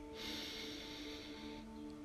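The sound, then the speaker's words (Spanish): One long, faint inhale during a guided breathing exercise: airy breath noise that swells and holds for over a second over a low steady hum, then fades. “Y una última, inhala.”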